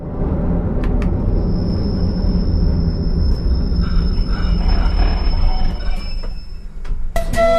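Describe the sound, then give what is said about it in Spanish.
A passenger train pulls into a station stop near Prague with a loud, steady rumble. A sustained high-pitched wheel squeal runs over it for several seconds, and a few sharp clicks come near the end. “Algunos pasajeros abandonan el tren, otros se suben y el viaje puede continuar.”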